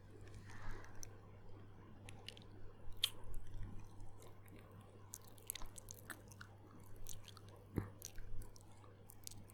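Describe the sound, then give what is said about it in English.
Quiet, wet mouth sounds of nibbling, licking and sucking on an ear. Many small smacks and clicks sit over a low, steady hum, with no voice. “You like how I nibble and lick and suck on your ear, my good boy?”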